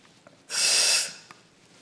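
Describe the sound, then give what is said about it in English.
A single sharp inhalation as someone sucks air from a tank, a hissing breath that swells quickly, holds for under a second, then tapers off into quiet. “Okay, hopefully there's air in the tank. We'll see. Now suck in. Sucking it.”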